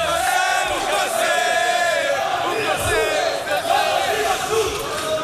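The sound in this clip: A crowd of supporters cheers at an election night rally in Israel, a loud continuous roar of many voices with chant-like swells that holds steady across the whole stretch.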